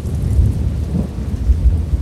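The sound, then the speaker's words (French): Steady rain falls at a harbour port, with loud, deep rumbling thunder rolling underneath throughout the short stretch, with no voices. “Le jeune Charles Darwin, sous la pluie, attendant le départ du Beagle”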